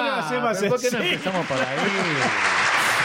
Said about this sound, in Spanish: Aplausos totales